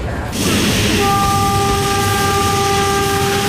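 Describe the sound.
A train arriving at a station: a loud, steady rumble of the rolling train, joined about a second in by a sustained, steady horn tone that holds to the end.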